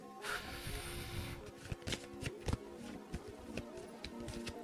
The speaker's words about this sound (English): And I've drawn my card, the Skull and the Crown.